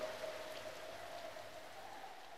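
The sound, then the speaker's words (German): Steady rain falling during a storm, a constant hiss of drops at moderate loudness with no breaks. A faint thin tone runs through it. “Sturm und Regen. Der Sturm ist mir immer unangenehm.”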